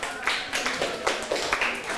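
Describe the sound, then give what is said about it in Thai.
Students in a classroom clapping for themselves after a group quiz activity: a quiet, even run of hand claps in a quick, regular rhythm, about four claps per second. “ถือว่าทุกคนเก่งมากปรบมือให้ตนเองอีกครั้งครับ”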